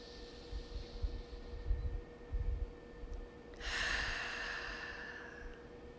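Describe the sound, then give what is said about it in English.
A deep, full breath: after a few low, muffled thumps over a steady faint hum, a long airy breath swells suddenly and holds steadily for about two seconds, quiet and alone. “So let's take one more deep, full breath.”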